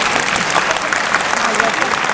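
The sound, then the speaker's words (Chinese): Audience applause during a live talk: many hands clapping in a dense, continuous, fairly loud wash that holds steady for about two seconds. “如果認同嘅拍一拍手，唔該。”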